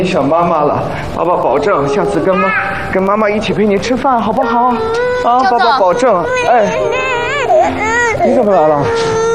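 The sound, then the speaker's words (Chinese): A young child cries in continuous, wavering, high-pitched wails that rise and fall throughout, loud and unbroken for the whole stretch. “你不哭了啊。”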